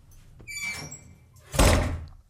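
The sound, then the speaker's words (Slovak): An angry woman bangs a door shut: a thin squeak as the door swings, then one loud, heavy slam that stands out sharply against quiet background. “A milostivá bude búchať dverami.”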